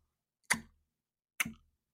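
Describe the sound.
A voice imitates a clock ticking at the start of a movie with two crisp clicking clucks, evenly spaced just under a second apart, alone against silence.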